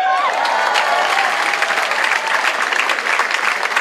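Audience applause and cheering after a song at a live performance. A sung note trails off at the very start, then dense, loud clapping continues steadily, mixed with crowd noise.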